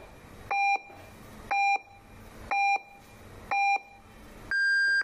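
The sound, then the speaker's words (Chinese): Radio time-signal pips mark the hour on an evening broadcast: four short, even beeps one second apart, then a longer final tone at a higher pitch, clear over faint background hiss. “现在为您准确对时，现在是傍晚7:30。”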